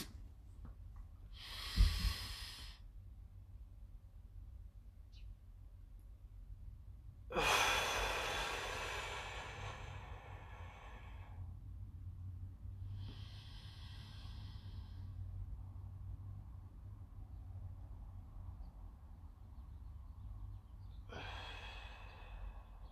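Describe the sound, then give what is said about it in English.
A person breathes through a 4-7-8 breathing exercise: a few separate airy breaths, one a long hissing exhale, with quiet pauses between them over a low steady hum. “So here we go. 4, 7, 8 breaths.”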